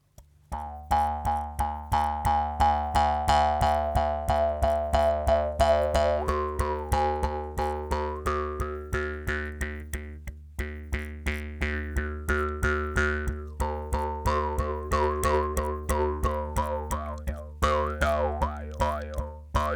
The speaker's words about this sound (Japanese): これがムックリの音です。